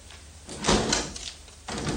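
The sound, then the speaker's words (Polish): Someone knocks on a door. A few dull knocks sound faintly, separated by short pauses. “O, chodź, pukaj.”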